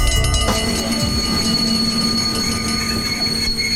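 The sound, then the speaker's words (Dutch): Rolling rail noise of an Intercity train approaching Deventer station: a steady, loud rumble with sustained high-pitched whining tones above it, continuous throughout. “Beste reizigers, de Intercity nadert station Deventer.”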